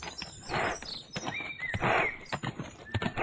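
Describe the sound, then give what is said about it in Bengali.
Hooves of a big, burly bull clatter as it gallops away down a street in Barrackpore, a rapid, irregular run of many loud clip-clop hoofbeats. “ব্যারাকপুরের বিখ্যাত ভোলা সেও খেরা খ্যাট খেরা খ্যাট করতে করতে বেরিয়ে গেল”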